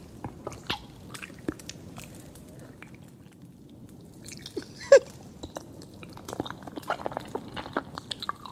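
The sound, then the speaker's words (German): ASMR chewing from an animated ogre eating eyes: scattered wet crunches and bites over a soft background, with one sharp, louder bite midway and quicker, busier chewing toward the end. “Da isst der so Augen.”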